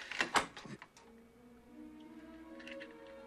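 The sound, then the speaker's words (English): Door lock being picked open with a hairpin: a quick cluster of sharp metallic clicks and rattles at the start, then a faint, steady low hum continues alone. “He's taken by surprise when the door unlocks.”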